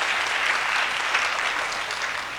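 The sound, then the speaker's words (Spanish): Audience applause at an outdoor community gathering, honoring the local community that built the stage: strong, continuous clapping with a thick, uniform texture lasting the whole clip. “Vamos a brindar fuertes aplausos a la comunidad del centro por haber hecho el escenario. Vamos a dar fuertes aplausos.”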